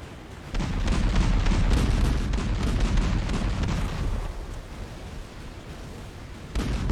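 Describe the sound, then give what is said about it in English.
Naval ship guns firing at a target in a video game, a loud, dense rumble of overlapping booms that blends into a continuous roar, strongest early, then easing, with a fresh burst near the end; no voices. “the ship captain has selected a target for his ship and has commenced firing.”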